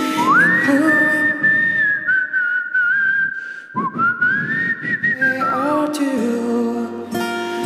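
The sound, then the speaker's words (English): A person whistles a song melody alone, holding long clear notes with smooth upward glides between them and a few quick ornamental flicks, steady and fairly loud throughout. “And then this turns into a whistling version of me.”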